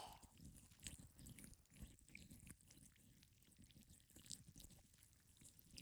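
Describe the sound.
Wet, slimy squelching as a slick tentacle with a thinned tip traces the fine grooves of an ear, a close ASMR texture of many small squishing and sliding sounds running continuously without any voice.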